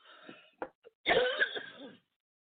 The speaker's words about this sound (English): Oh, you coughing?